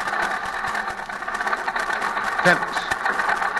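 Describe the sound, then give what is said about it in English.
A rough-running vehicle motor with sand in its carburetor keeps up a steady, uneven throbbing hum. A brief louder knock cuts through midway. “That motor sounds bad.”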